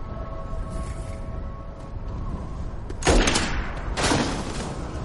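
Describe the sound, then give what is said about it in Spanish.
Gunshots fired by a guard from a wall over a restricted ghetto and rubbish dump, heard as two sharp, loud bursts about a second apart above a low, steady ambient rumble. “Un vigilante ha disparado desde el muro. Lo ha matado.”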